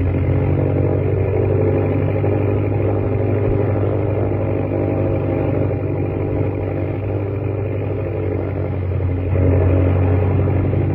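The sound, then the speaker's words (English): Loud, steady drone of an airplane engine, throttled down as the plane glides low through a narrow rocky gorge, holding an even tone that swells slightly near the end. “Throttle down, glide in. Gorge is so narrow, it's like flying down Wall Street.”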